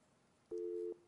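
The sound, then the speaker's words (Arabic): A telephone busy tone sounds as a call is cut off: one steady electronic beep lasting under half a second, clear and alone over faint background hiss. “طيب، انقطع اتصال مع عبد الملك.”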